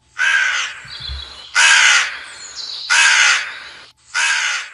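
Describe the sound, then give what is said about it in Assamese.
A crow cawing four times, each call a loud, harsh, drawn-out caw separated by short pauses at a fairly even pace. “এইবুলি কাউৰীয়ে আকৌ মুখত মঙহ টুকুৰা লৈ গুচি গ'ল।”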